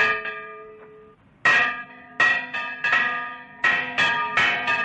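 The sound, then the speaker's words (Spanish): A village church bell rings out in repeated loud strikes, each clang followed by bright, sustained overtones that ring on between blows, with no voices. “Alguien hace sonar la campana de la iglesia.”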